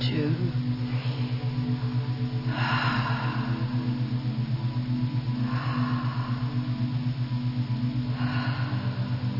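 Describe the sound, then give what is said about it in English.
Slow, deep breathing in and out, paced to a count during a guided relaxation exercise; a few soft, airy breaths spaced evenly several seconds apart over a low, steady humming drone. “So breathe on a count of perhaps 5. In, 1, 3, 4, 5. Out, 2, 3, 4.”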